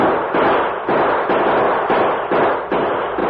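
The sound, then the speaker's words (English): Gunshots fired into the air in a radio drama, men using their guns to fake a short battle around an express stage: a loud, dense run of overlapping blasts with barely any pause between them. “Turn around and start back to Stockton with the prisoners as soon as we fire some shots into the air. Right. Use your guns, men. Make it sound like a short battle.”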